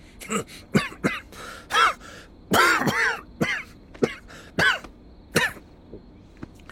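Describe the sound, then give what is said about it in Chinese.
Repeated coughing and throat clearing from a person in winter: a long series of short, harsh bursts separated by brief gaps, fairly loud, with no talk. “被子盖好，不然一会儿又要咳了。 嗨，冬天到了，咳嗽很正常。”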